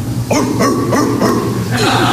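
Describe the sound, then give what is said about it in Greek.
A small dog yips and barks in several short, high, arching bursts over a steady low hum, fairly loud throughout. “θα σ' αγοράσω ένα σκυλάκι. Το σκυλάκι.”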